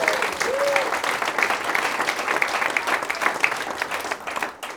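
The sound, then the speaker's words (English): Audience applause at a live event: dense, steady clapping holds at an even loudness for nearly five seconds and thins slightly at the very end. “Let's have a hand for Nick on the sound.”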